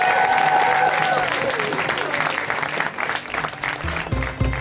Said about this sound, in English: Put Your Hands Together, the amazing Ashley Barnhill. Give it up. Come on. Let's hear it.